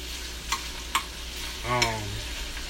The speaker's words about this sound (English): I'm sitting here cooking brunch right now. You know, while I'm talking to y'all.